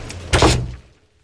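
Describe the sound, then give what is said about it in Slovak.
A door being closed and locked lands with one heavy thud, followed by a brief, fading rattle and then quiet. “Zatvor dvere a zamkni.”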